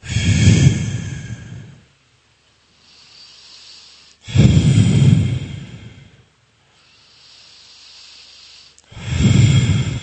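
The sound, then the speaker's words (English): Forceful, energetic exhales pushed out during a breathing exercise: three loud breathy bursts, each about two seconds long, separated by quieter inhales, with no talk. “And on every exhale, just energetically push your air out.”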